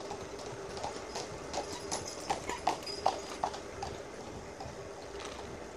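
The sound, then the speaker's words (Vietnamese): Hooves of a horse-drawn carriage clop through a deserted city street, a run of sharp, uneven clops that peak midway and fade toward the end over a steady background hum. “Này có xe ngựa các bạn thấy không?”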